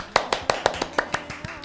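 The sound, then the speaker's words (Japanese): Applause on a radio program, heard as ten sharp hand claps from a single pair of hands in a quick, even rhythm, fading slightly toward the end. “全国各地から拍手の渦が届いております。”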